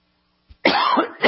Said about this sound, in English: I got something stuck in my throat over here.